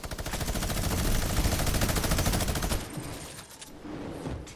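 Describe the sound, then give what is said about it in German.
Minigun firing in the video game Fortnite: a loud, dense stream of rapid shots pours out for nearly three seconds, then the barrage cuts off and gives way to quieter, scattered noise. “Welcher Spaß, welcher Spaß mit Minigun?”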